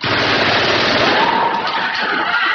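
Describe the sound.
Rapid automatic gunfire from a firing exercise with hot, empty cartridges ejected, a loud, dense, continuous rattle of shots with no pauses across the whole clip.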